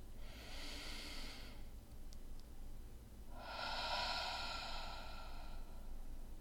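A slow, deep breath: a long, soft, airy inhale, then after a short pause an even longer exhale, heard alone and steady in loudness.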